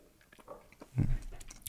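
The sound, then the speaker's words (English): Faint wet mouth sounds come from someone chewing a sip of bourbon with air drawn in: soft clicks and smacks, then a brief, slightly louder gurgling swish. “And you'll probably hear, I sort of almost like chew it a little bit. You know, it's nice to get some air in your mouth.”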